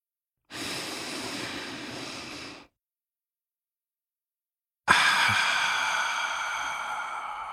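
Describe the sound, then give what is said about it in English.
A deep breath: a long airy inhale lasting about two seconds, a pause of silence, then a strong exhaled sigh that starts abruptly and slowly fades. “let's take a deep breath”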